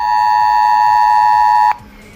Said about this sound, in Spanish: Volverá a sonar esto en sus teléfonos móviles, será parte de un simulacro de incendio que se va a llevar a cabo este viernes en el municipio de La Guancha